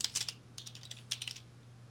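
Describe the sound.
Fingers type on a computer keyboard to run a quick search, with quiet, rapid key clicks coming in short bursts over a low, steady hum.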